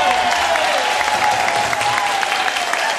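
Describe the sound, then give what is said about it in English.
A studio audience welcomes the host of the show Gross Me Out with dense, loud applause, a continuous unbroken patter of many hands clapping from start to finish. “So, close your eyes, plug your ears, and put your hands together to welcome the host of Gross Me Out, Billy Cass!”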